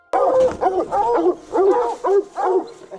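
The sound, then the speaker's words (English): Hunting dogs baying and barking at night during a raccoon hunt in Wisconsin woods: a rapid, urgent series of loud, howling barks with brief gaps between them. “following the dogs on a hunt for raccoons. It's one of the very few kinds of hunting Wisconsin sportsmen are allowed to do at night. What you're about to hear are the adrenaline-packed moments”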